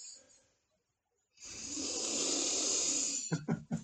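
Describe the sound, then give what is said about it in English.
A long, loud breathy exhale from a girl under exam pressure: a strained rush of air lasting nearly two seconds after a short quiet gap, followed by a few brief choppy bursts. “Did you hear that breath, podcast listeners? Because that is a girl who is under pressure.”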